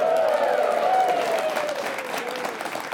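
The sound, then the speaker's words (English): A live studio audience applauds at a weekly BYU Cougar football coach's show: a steady wash of clapping with cheering voices over it, slowly easing off toward the end. “We have a live studio audience on hand, don't we? Don't we?”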